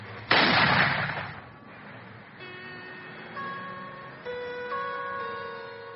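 A single gunshot rings out in a film scene: one sharp, loud blast with a long fading tail, followed by steady sustained tones.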